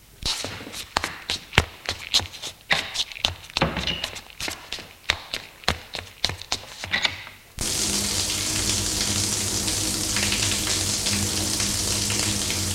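Water in a bathroom sink during washing: many sharp, uneven splashing thumps for about seven seconds, then a sudden switch to a steady, loud gush of running tap water that continues to the end.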